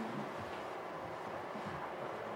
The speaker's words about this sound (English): And this is the ore train, probably coming out.